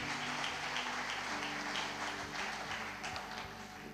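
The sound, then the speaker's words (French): Applause from an audience at a Sunday church service rises as a soft but steady, dense patter of clapping, holding an even level throughout with low sustained tones beneath. “Est-ce que tu peux acclamer pour le Seigneur?”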